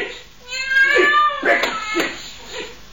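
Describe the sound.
A frightened, trembling cat caught in a corner meows a few times in quick succession, with loud, drawn-out, wavering cries of fairly high pitch.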